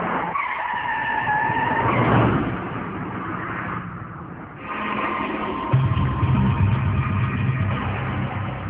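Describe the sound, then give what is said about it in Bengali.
A car's tires screech as it skids to a stop just short of a pedestrian. A long, loud squeal mixes with engine roar and rumble and runs for several seconds. “রকির গাড়ির ঠিক সামনে চলে এসেছে কেউ একজন। আরেকটা হলে চাপা পড়ত এমন অবস্থা”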